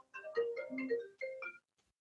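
A melodic phone ringtone announces an incoming call: a short phrase of stepped, bright tones plays, breaks for a moment, then a shorter phrase follows before it stops. It sounds alone, with no talk over it.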